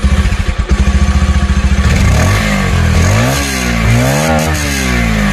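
A Pulsar motorcycle engine idles with a fast, even throbbing for about two seconds, then revs up and down a few times, its pitch climbing and dropping in loud, sweeping surges.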